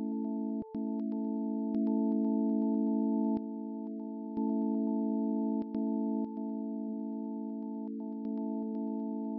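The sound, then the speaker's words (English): Solar wind recorded by Voyager 2 and turned into sound: charged particles streaming from the sun become a steady hum of layered pure tones, broken by sharp clicks and brief dropouts as the level shifts slightly. “That is the sound of the solar wind, the stream of charged particles from the sun that suffuses our entire solar system.”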